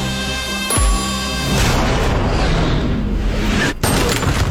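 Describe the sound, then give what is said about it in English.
A gunshot in a film preview: one sharp, booming shot followed by a loud, dense roar of noise that continues to the end. “I'm just gonna shoot him in the leg.”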